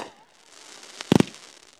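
Fireworks are shot off from a beach at midnight during low tide: a quick cluster of three sharp bangs rises out of a faint, hissy background.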